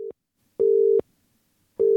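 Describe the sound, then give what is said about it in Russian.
Telephone tone heard while placing a call: a steady, single-pitched beep that switches on and off in a regular pattern, with three bursts, the first and last cut short, separated by silence and no voices. “Я прямо сейчас звоню Джону”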